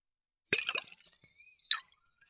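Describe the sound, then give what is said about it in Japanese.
A whisky bottle gives off faint liquid sloshing sounds: a short cluster of watery plops and gurgles, a quiet pause, then one more brief splash. “次はウイスキーボトルの音を聞いてみましょうか。”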